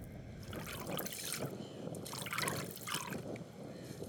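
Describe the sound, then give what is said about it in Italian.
Water sloshing, trickling and dripping as water-soaked, rotting coconut husks are rinsed and wrung out by hand. The splashy, irregular liquid sound is fairly faint and continuous. “Si sciacqua, si strizza e finalmente ci sembra di capire. Sono le scorze esterne della noce di cocco”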